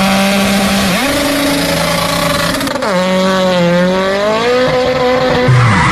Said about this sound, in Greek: πάει το λάστιχο, πάει και η ζάντα στη μέση του δρόμου.